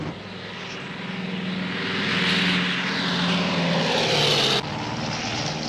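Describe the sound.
Airplane engine droning in flight: a loud, steady roar that swells gently through the middle and drops slightly in level near the end.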